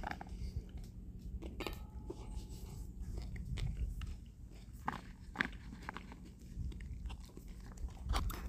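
Biting into and chewing a small snack tomato: a faint, wet crunch followed by many soft squelching chews and clicks at an uneven pace over a low, steady hum.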